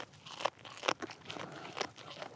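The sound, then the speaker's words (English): Crunching bites as goats chew the needles and tender branches of a fresh blue spruce Christmas tree: a few sharp, crisp crunches stand out over a steady rustle of softer chewing. “Soon, they spot a fresh blue spruce Christmas tree recently delivered over the fence for their enjoyment. Turns out goats relish juicy pine needles and tender branches.”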